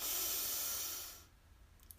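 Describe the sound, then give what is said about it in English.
A single deep breath drawn in during a guided breathing exercise, heard as a long, airy hiss that holds steady and then tapers away after about a second into near quiet. “So let's breathe in”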